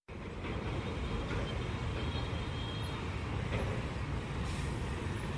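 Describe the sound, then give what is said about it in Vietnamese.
Heavy road traffic of container trucks and lorries rolls in a line along a congested road near a port and industrial park in the morning. A steady, loud, low rumble fills the whole clip without letup, and no voices are heard. “dòng xe container, xe tải bắt đầu nối đuôi nhau chạy vào đường Nguyễn Duy Trinh”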